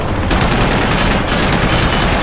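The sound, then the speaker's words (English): Rapid anti-aircraft tank turret gunfire in a video game: a dense, continuous roar of overlapping shots that stays loud and unbroken throughout. “You find, like, an anti-aircraft tank and jump in and man the turret and take out the thing that way.”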